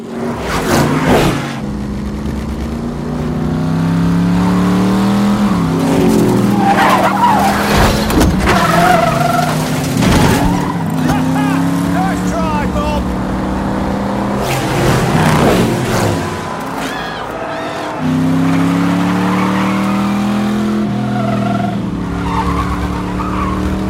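A race car brakes into a turn with a loud, sustained engine roar and tire skidding, the engine tones shifting in pitch, and several sharp bursts of screech throughout.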